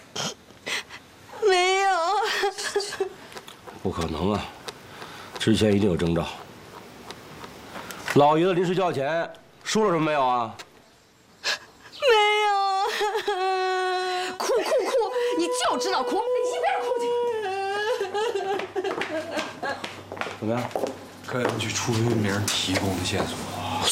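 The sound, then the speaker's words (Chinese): A distraught family member wails and sobs after an elderly grandfather goes missing, with rising and falling moaning cries broken by gasps and shaky breaths, loud and drawn out across the scene. “哭哭哭！你就知道哭，你一边哭去。”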